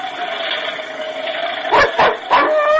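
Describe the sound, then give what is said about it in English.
Dog barking in a few sharp, gruff bursts close together near the end, heard above a steady background hiss. “Quiet, you fool dog. Shut up.”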